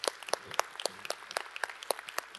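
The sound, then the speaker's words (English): A church audience in Houston applauding, heard as faint, scattered claps, each one short and distinct, spaced irregularly across the brief stretch. “Let's just give them a cheer. How about that?”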